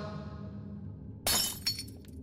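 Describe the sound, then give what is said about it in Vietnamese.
A glass mirror smashes and shatters on the floor: a sudden loud crash of breaking glass, then a second, smaller burst of tinkling shards over a low, steady background. “Tấm gương rơi xuống đất vỡ tan tành”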